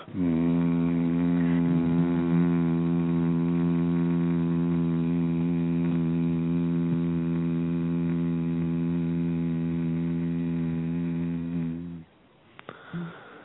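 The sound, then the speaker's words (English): People hum together on one sustained, steady low note, a rich, even drone held for about twelve seconds before it stops abruptly. “let's you and I just make a hum together”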